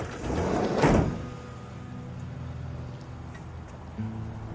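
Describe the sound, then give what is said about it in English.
A blue van's sliding door is slammed shut as a man gets in, in a parking lot: one loud thud near the start, followed by a low, steady rumble. “Peter walks up to a blue van. He gets in and slides the door shut.”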